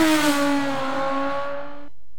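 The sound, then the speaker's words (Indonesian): A motorcycle engine revs with a steady, buzzing harmonic drone that drifts slightly lower in pitch before cutting off abruptly. No voices are heard. “Turbo motor, ban mantap, motor siap gaspol.”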